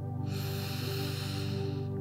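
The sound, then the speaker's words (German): A deep inhale during a meditation breathing exercise: a soft, airy rush of breath drawn in steadily for well over a second over sustained, droning musical tones, all played quietly. “Lass uns dazu drei tiefe Atemzüge nehmen. Atme ein,”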